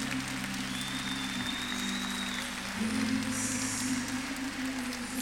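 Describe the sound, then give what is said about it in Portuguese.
Applause from a church audience at a communion service: dense, continuous clapping that stays full and even for about five seconds, with no break. “Aplauda, Jesus.”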